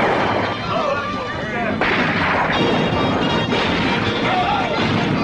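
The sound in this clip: Gunfire from the 1981 film Pinball Summer, a loud, dense burst of shots blended into a continuous clattering roar with no clearly separate reports.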